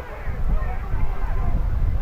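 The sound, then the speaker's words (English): Wind blows at a football stadium, a constant low rumbling buffet under a commentator's talk. “Gets the play, and you can hear that wind blowing.”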